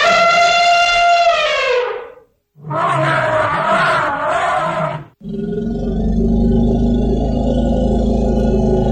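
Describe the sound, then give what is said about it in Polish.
Elephant calls: first a long, harmonic trumpeting blast, then a short pause and a rough, roaring call. After a brief gap comes a deep, sustained rumble that stays loud to the end. “Czy to była owca? Nie, to słoń.”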